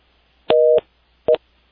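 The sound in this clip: Telephone busy tone after a caller's line dropped during a phone-in call: two steady, level-pitched beeps, the first longer and the second short, heard alone.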